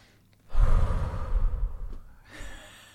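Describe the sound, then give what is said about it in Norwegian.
Deep belly breathing: one long, loud, airy breath lasting well over a second, followed after a brief pause by a softer, shorter second breath. “Pust med magen nå, jeg får høre.”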